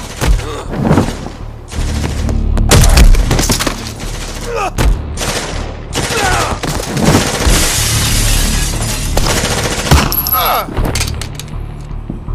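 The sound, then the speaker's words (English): Gunfire as a club owner and his men open fire with guns inside a club: dense, loud bangs and bursts mixed with shattering crashes, continuing without a break for the whole stretch. “the club owner and his men take up arms and open fire on the Wraith.”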